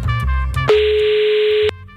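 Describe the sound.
A telephone call is being placed, marked by a single steady, clean tone that lasts about a second, with busier, louder sound just before and after it.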